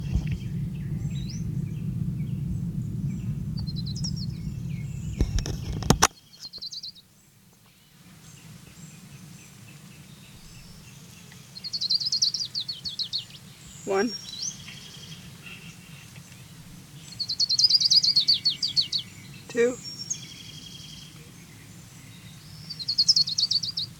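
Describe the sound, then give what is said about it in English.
An orange-crowned warbler sings a few high, thin trills, each a short, rapid run of notes separated by long pauses, over a steady low background hum with a sharp click early on. “Here's Orange Crown Warbler number 5.”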